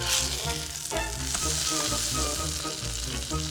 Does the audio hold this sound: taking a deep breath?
no